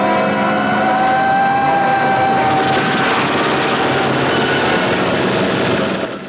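A truck's heavy engine roars as it speeds away with a German tank in pursuit. The loud, steady rumble continues for about six seconds and eases slightly at the very end, with no voices.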